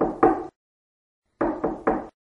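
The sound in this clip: Knocking on a door in the next room: two quick raps, a pause, then three more evenly spaced knocks. The blows are moderately loud and dull, with nothing else around them.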